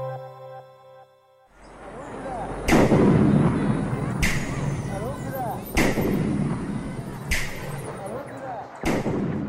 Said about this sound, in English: You wouldn't know from the ominous beats and the sounds of bombs landing that this is the trailer of a new feature film